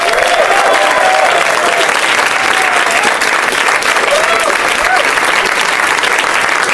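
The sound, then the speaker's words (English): Loud, sustained audience applause at a comedy show as performers are welcomed onstage, dense continuous clapping that stays steady from start to finish. “Keep clapping loudly into my ear.”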